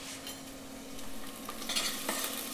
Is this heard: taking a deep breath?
no

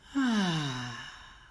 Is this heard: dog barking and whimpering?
no

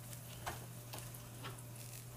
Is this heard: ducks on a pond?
no

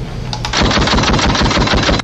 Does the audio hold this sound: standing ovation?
no

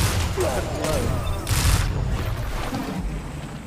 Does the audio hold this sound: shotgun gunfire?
yes

